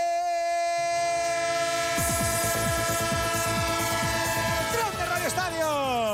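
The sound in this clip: A train horn sounds as a sustained, loud chord through the whole sound effect, joined after a couple of seconds by the steady rhythmic clatter of wheels on rails. Near the end the horn's pitch bends downward.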